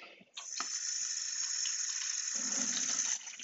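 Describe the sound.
Tap water runs steadily as containers are rinsed. A continuous hissing splash begins after a brief quiet moment and holds at an even level, and a fuller, lower gushing tone joins for the last second.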